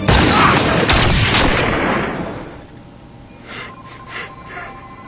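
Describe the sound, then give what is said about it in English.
Gunfire erupts during a tense armed standoff: a loud, dense burst of sharp blasts fills the first couple of seconds, then fades into quieter rumbling with a few faint thumps. “That's enough shooting.”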